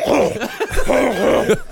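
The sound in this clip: A voice imitates phlegmy throat clearing, a loud, continuous wet rasp of gurgling, hacking noises with a few rough surges, lasting under two seconds.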